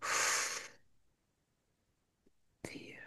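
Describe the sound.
A slow, breathy exhalation during a calming breathing exercise, a soft airy rush of breath that fades into silence, followed by a voice beginning to speak.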